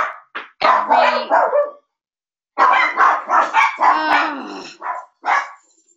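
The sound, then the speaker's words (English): Two dogs barking at night inside a sleeping house: many loud, sharp barks in two clusters separated by a short silent pause, with no other sound between them. “this is just baffling for me because my whole house is asleep and usually both of these dogs at this hour of the night are sound asleep.”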